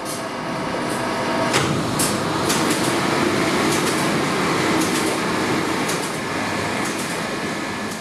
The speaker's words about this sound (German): Man sieht auf der Oberfläche der Maschine unzählige Walzen, die sich ununterbrochen drehen, solange die Maschine läuft. Und sie macht auch einen ziemlichen Lärm dabei.